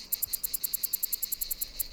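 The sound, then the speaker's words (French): Cicada song: a rapid, regular train of buzzy, very high-pitched pulses, fairly faint and continuing without a break. “Derrière le chant de la cigale se cache la voix de Jérôme Sueur.”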